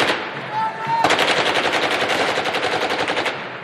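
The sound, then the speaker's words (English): Machine guns fire into the air at a funeral in Baghdad as a coffin is carried to a mosque. After a second of noisy din, rapid, dense volleys break out abruptly and rattle on steadily and loudly to the end. “Hundreds of young men fire machine guns into the air as their comrades carry the coffin of a dead boy into Baghdad's Abu Hanifa Mosque.”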